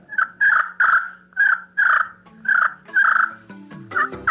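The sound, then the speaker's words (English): Turkey yelps from a slate call, a wooden striker held upright and worked in a circular back-and-forth motion on a hand-sized piece of slate. About seven raspy, evenly spaced yelps are followed by a quicker, choppier burst of clucks. “a wooden striker that's held vertically to the slate, and it's just worked in a circular back and forth motion and produces a turkey sound.”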